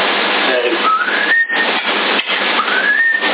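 People whistle a TV theme tune, a clear melody with sliding notes that rise and hold, played continuously for about three seconds with no voices.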